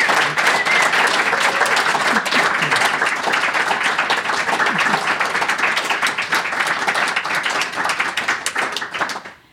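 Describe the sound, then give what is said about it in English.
Enthusiastic audience applause at a Commonwealth Club event, a dense, loud and sustained wash of many hands clapping that holds steady for several seconds before tapering off quickly at the end. “So for Arlene and Liz, let's give them a big hand for their pioneering and sustainable work.”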